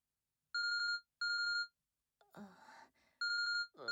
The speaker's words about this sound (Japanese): お兄さんから着信みたい。